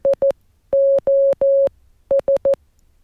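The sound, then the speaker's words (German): Morse code SOS distress signal: three short, three long, then three short beeps of a steady mid-pitched tone, sent in one run without gaps between the letters. The beeps are clean and loud against silence. “Wie jede Erstaussendung oder unbeantwortete Aussendung ist der Anruf, hier also SOS, dreimal hintereinander zu senden”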